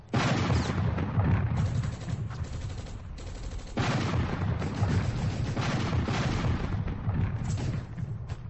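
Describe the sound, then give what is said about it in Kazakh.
Artillery fire with exploding shells forms a dense, continuous barrage of booms and crackling blasts that rumble together without pause for several seconds. “Артиллерия телгә килде. Снарядлар бер-бер артлы сызгырып үтеп, дошман позицияләрендә ярыла.”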